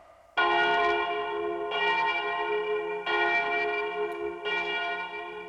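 A church bell in a bell tower strikes four loud, evenly spaced times, each stroke ringing on with a rich, sustained metallic hum into the next.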